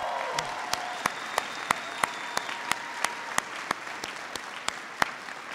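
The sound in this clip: An audience gives a round of applause at a military ceremony after the national anthem. Steady clapping runs throughout, with a regular series of sharp, louder claps standing out against the wash.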